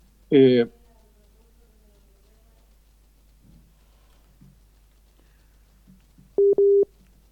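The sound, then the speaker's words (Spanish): A busy signal sounds after a dropped international phone call, heard as a brief, steady mid-pitched electronic tone broken into two short beeps near the end, following a long stretch of near-silence on the line. “Se acaba de caer otra vez la llamada.”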